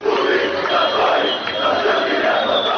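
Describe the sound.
Football fans chanting after the Armenia–Albania match, a loud, sustained crowd roar of massed voices shouting together without a break.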